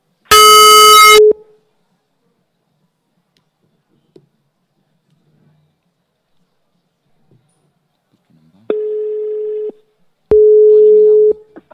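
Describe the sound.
A telephone call being placed: a harsh buzzy tone opens, then after a long near-silent gap come two steady, mid-pitched beeps of ringing tone close together.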